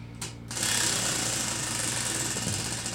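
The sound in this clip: A wheel spun in a spin game gives a loud, steady whirring rattle. It starts abruptly after a brief softer moment and keeps an even level to the end.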